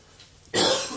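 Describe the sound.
A single harsh cough from someone with a persistent cough bursts out loudly after near silence, then trails off in a rough, breathy rasp.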